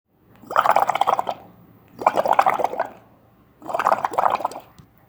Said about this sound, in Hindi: Arty कूदने लगी और छपाके बनाने लगी।